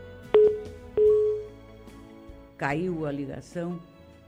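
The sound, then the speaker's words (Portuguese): A phone line tone follows a dropped call: two short, steady mid-pitched beeps, then a voice begins talking. “Caiu a ligação. E certamente ela não desligou, porque foi numa hora de uma pergunta mais íntima.”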